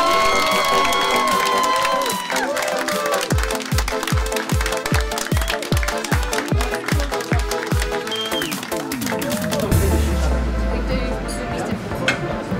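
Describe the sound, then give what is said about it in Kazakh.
Applause and cheering from an audience honouring young performers: dense, continuous clapping and shouting that stays loud throughout, with a steady thumping beat underneath for part of it. “Тағы да бір мәрте жастардың құрметіне шапалақтың шаңын шығарып қояйық.”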